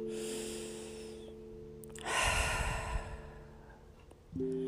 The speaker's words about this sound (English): We're going to breathe five times a little slowly, a little deeper than a normal breath.